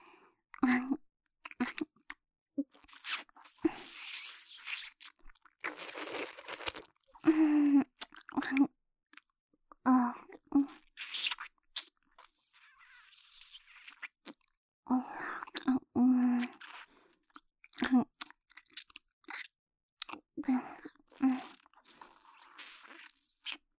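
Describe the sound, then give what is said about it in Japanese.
Close biting and chewing sounds in an intimate roleplay, coming in irregular bursts of soft, wet crunches and clicks separated by short pauses, fairly quiet. “じゃあいっぱい噛んであげる。”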